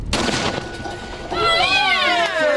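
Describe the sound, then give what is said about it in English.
A Hicks gun fires a loaded charge: a single loud blast at the start decays quickly, and then high, wavering excited voices rise and fall over the remaining seconds. “The charge and ammo are loaded. Will it be boom or bust? Five, four, three, two, one.”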